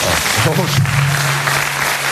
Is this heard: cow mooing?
no